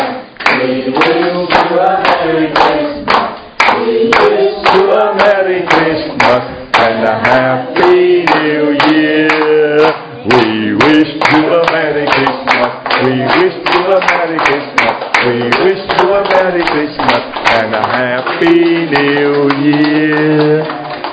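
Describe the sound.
A group claps along in steady rhythm to a sung Christmas carol. Crisp, regular claps sit under the singing voices throughout.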